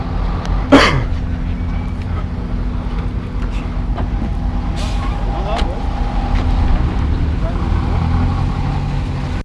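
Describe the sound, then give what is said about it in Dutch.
A bus drives onto a small square, its engine giving a steady low rumble that stays loud and even throughout, with muffled talk underneath. “De bus rijdt nu een pleintje op, alwaar de mensen zullen uitstijgen om richting de vergadering van de Centrumpartij te gaan.”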